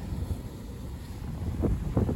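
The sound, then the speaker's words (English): Wind buffeting a microphone outdoors beside a wide waterfall, a dull low rumble with uneven gusts that grow stronger toward the end, with no voices. “Damn wind.”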